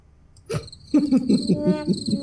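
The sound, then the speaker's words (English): Crickets chirping in a steady, rapid pulsing trill that runs fairly loud and unbroken after a brief opening chirp, with no voices present. “Crickets.”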